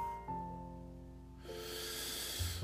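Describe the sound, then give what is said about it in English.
A deep breath drawn in during a guided breathing exercise: a soft sustained musical drone plays first, then a long breathy airy rush of inhaled air rises in over the second half and continues to the end. “Let's take in a deep breath together.”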